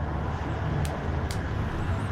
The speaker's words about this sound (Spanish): Los carros me pasan aquí por un ladito.